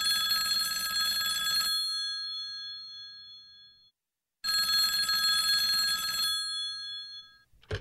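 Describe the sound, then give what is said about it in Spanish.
A telephone rings at a mechanic's shop in two bright, metallic, bell-like bursts. Each ring lasts under two seconds and is followed by a fading tail and a silent pause. “Una llamada por teléfono. A phone call.”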